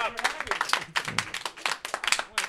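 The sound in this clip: Applause for an improviser at a live improv comedy show, heard as scattered, distinct claps in an irregular rhythm, with voices mixed in among them.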